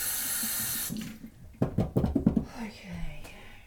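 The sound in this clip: Water runs from a kitchen tap as hands are washed during cooking, a steady hiss for about a second that cuts off abruptly, followed by soft talk and a few quiet thuds.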